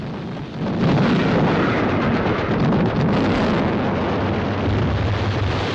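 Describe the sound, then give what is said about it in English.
Heavy artillery fire and explosions pound the ship Amethyst, a deep roaring rumble that surges in after a short lull and stays loud and continuous, like a relentless blast-filled barrage. “In the wheelhouse, leading seaman Frank and an officer are thrown off their feet by a violent explosion. The Amethyst continues to be bombarded with heavy artillery fire”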